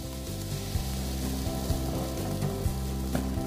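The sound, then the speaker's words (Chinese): A pot of braising liquid, tinted with tomato paste, boils at a rolling bubble. It is a steady, continuous sizzling hiss over a low, even hum, with no talk. “我们就像这样子大概卤啊，像这样子滚了以后，转中小火，”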